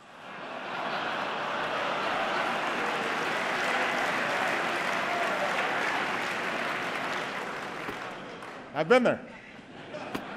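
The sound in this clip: An audience applauds President Obama with a steady, dense wash of clapping for several seconds, fading out before a voice begins speaking.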